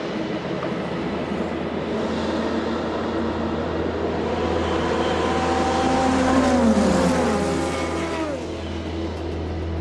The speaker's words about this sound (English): waiting for a gap in the LMP2 fleet that comes storming past him